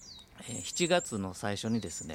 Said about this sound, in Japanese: 今ねちょっとバックで、鳥の鳴き声とかね、さえずりが聞こえてますけど